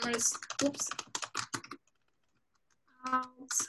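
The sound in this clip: Someone types a sentence on a computer keyboard: quick, irregular keystrokes come in a dense burst, stop for about a second, then resume briefly.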